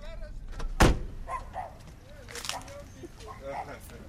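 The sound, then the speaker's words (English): A car door slams once with a single sharp thud while the car is parked in front of a home. People talk before and after it. “Close that door.”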